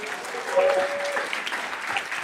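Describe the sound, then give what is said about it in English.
Steady applause from a church audience welcoming a guest speaker to the front, dense even clapping that carries on throughout without a break. “He's an outstanding leader, and I wonder if you'd put your hands together and welcome Josh as he comes to speak to us.”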